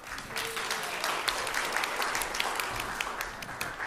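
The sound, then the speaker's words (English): Applause from a church audience welcoming a speaker: dense, steady clapping from many hands, even in loudness from start to finish, with no voices over it. “So would you put your hands together and welcome her?”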